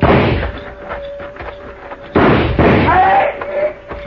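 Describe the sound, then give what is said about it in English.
Gunfire in a drama shootout: two loud, sharp blasts spaced apart, each trailing into a lingering rumble, with a faint steady hum beneath. “All right, let's move in and keep firing.”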